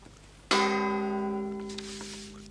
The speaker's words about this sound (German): Die genaue Zeit mit dem Gongschlag 17 Uhr.